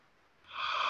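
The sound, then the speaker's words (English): A deep breath drawn in during a guided breathing exercise: a soft, airy rush that swells quickly to full loudness in under a second, with no talk over it. “Breathe in your era of abundance.”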